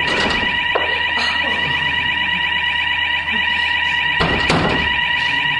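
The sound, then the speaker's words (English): A fire alarm rings loudly and continuously at a steady, shrill pitch, with a few dull thumps breaking through. “The fire alarm, and it's ringing.”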